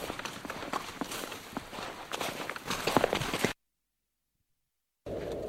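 A man's feet patter quickly and rhythmically as he runs eagerly toward a group of arriving guests. The steps keep going for about three and a half seconds, then stop abruptly in silence.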